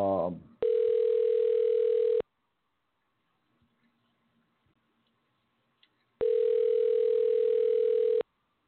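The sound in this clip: Ringback tone of an outgoing telephone call: two long, steady, evenly pitched ring tones separated by a silent pause of about four seconds, with a brief bit of voice just before the first ring.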